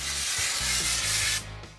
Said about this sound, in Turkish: Bu yeni model bir yapı sprey tabancası. Tetiği çekiyoruz ve bunu açıyoruz.